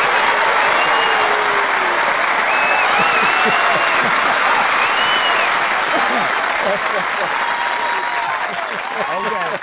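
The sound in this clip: Applause from a live audience follows a poetry reading on an online radio show: dense, steady clapping fills the whole clip at high volume, with voices audible through the crowd noise.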